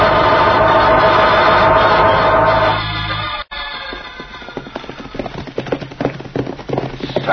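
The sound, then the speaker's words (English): Horses gallop fast under riders. A dense, steady roar fills the first half, then rapid, irregular hoofbeats drum on in a quick rhythm. “We never ride so fast as this, Cisco. We must ride fast, Poncho.”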